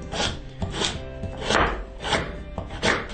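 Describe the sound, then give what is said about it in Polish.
Knife dicing parsley into cubes: a steady series of crisp chopping strokes at an even rhythm, each a short dry tap, with no talk. “Nasza bardzo aromatyczna pietruszka. Również kroimy ją w kostkę.”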